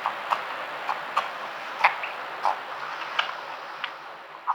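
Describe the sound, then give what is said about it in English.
Wet sucking and smacking of a newborn moose calf nursing from its mother, a brisk run of many short clicky pulls at an uneven rhythm, fairly faint over quiet background hiss. “a moose calf nursing, and you could hear like the sucking noise of the calf just going to town”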